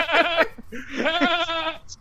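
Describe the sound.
A person imitating a goat, giving two loud, quavering, nasal bleats, the second longer and more drawn-out than the first.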